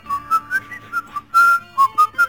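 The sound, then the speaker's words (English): Whistled intro to a pop song: a clear, high-pitched melody of about ten short notes with one longer held note near the middle, done by a single person with no talk. “Shall I whistle the sort of little intro?”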